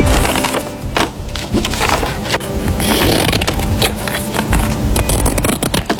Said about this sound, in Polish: Cięcie papieru nożyczkami.